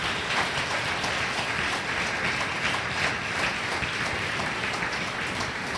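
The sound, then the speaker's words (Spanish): Congregation applause fills an Assembly of God church service, a dense and steady clapping that holds at an even level throughout with no voices heard over it. “¿Cuántos pueden darle un fuerte aplauso al Señor en esta hora?”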